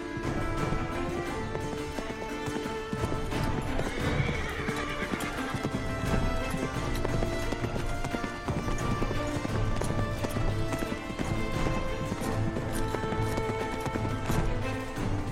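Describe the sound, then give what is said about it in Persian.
A horse gallops across a plain with rapid, steady clip-clop hoofbeats that continue over a dense, continuous background. A whinny rises above the hooves. “کفون سوار بر اسب با سرعت توی دشت جلو میره.”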